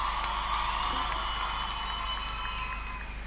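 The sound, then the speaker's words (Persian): Audience applause fills a live music show, a steady, dense wash of clapping that holds at an even loudness throughout without breaks. “به افتخارش دست بزنیم.”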